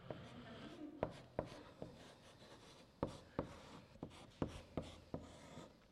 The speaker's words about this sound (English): And so we'll draw today's sketch here. I want to draw the word redemption. This is a very important, or write the word redemption. You draw pictures and write words.